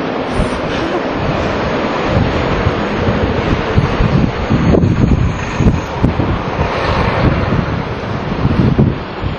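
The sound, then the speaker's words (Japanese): Strong wind buffets a microphone fitted with a windscreen, a loud, continuous low roar and rumble with gusty surges lasting the whole stretch, with no talking. “風が強いからこれ音声取れてるか な。風防くんがいるんでね。”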